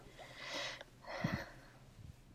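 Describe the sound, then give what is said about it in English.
A nervous inhale: two soft, breathy draws of air in quick succession, faint and airy, with a brief low snuffle in the second. “Wow, is that a nervous inhale?”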